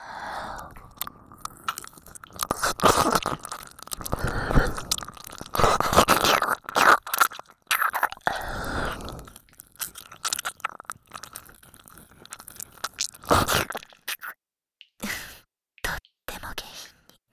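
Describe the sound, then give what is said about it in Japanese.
Wet ear-licking mouth sounds: many soft smacks, slurps and clicks come in irregular bursts, with occasional whispering and short pauses between the bursts. “あなたのお耳を舐めさせていただきます。”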